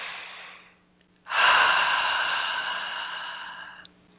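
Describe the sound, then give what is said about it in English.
A single deep breath: a faint inhale through the nose, then a long, louder exhale through the mouth that slowly fades over a few seconds. “let's do a nice deep breath here in through the nose and out through the mouth again.”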